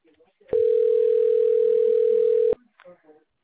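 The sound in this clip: A telephone rings while the caller waits for a busy line to pick up: one long, steady, mid-pitched ring tone of about two seconds, with brief faint sounds before and after it.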